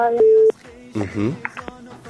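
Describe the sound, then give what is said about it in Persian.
A brief steady telephone tone sounds on a call-in line after a caller's connection drops, and a voice talks over the line right after it. “فکر میکنم تماس شنونده ما قطع شده”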